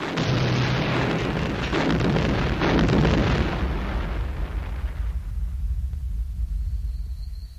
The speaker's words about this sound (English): the Millennium Falcon carrying Lando shot toward Endor, mere moments before the Death Star flared into oblivion like a supernova.